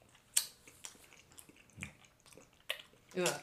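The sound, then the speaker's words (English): A person chews a Combos snack with soft, irregular crunches and wet mouth sounds. A few sharper bites stand out from the quiet, uneven chewing. “picks up a combo, looks at it from one side, looks at it from the other, from one end to the other, and proceeds to put it in his mouth. And this is what it sounded like.”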